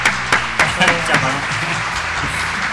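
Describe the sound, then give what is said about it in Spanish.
Hand-clapping applause in a radio studio: a few sharp, loud claps in the first second or so that taper off, then a voice carries on over the fading sound. “Aplaudo.”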